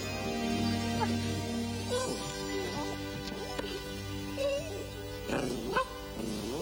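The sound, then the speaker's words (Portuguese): A puppy yips and whimpers in a run of short, high yelps that rise and fall, over a steady background hum. “Um cachorrinho!”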